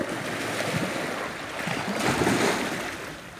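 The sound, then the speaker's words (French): Strong sea waves breaking against rocks on the shore, a continuous rushing wash of surf that swells slightly louder midway before easing, fairly faint overall with no voices. “Et lorsque la vague joue avec les rochers, peut-être qu'on est dans le paysage.”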